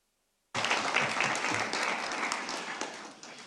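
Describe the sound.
Applause breaks out in a council meeting approving an appointment by acclamation. The clapping starts abruptly after a brief silence and stays dense and steady, thinning slightly toward the end.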